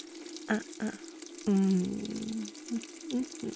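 Water splashing and trickling as a face is washed, a few bright splashes and drips with short voiced sounds mixed in among them.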